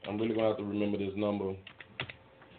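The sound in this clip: Typing on a keyboard: a few sharp, irregular key clicks that follow a stretch of a man talking.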